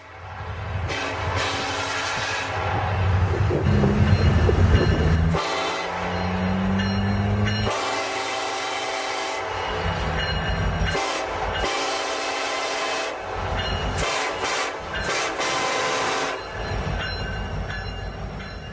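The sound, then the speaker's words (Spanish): A train rolls past without a break for nearly nineteen seconds. A loud, continuous rumble of wheels and cars carries scraping, squealing metal tones that surface now and then, and no voices are heard. “Y el tren no deja de pasar.”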